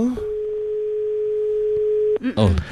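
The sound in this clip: A phone call ends with its disconnection tone, one steady mid-pitched electronic beep that holds for about two seconds and then cuts off into a brief burst of voice.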